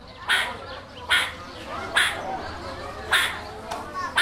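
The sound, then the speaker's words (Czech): Meerkat alarm calls from a zoo enclosure in winter: sharp, raspy, crow-like barks repeat about once a second, several in a row, each bright and brief over a quiet background. “Tak jsem si říkal, co je to za ptáka, nebo jestli se to ozývá z vedlejšího výběhu a takový zvuk vydává surikata. Jo, to je právě ten signalizační zvuk, kdy se snaží informovat ty ostatní o něčem”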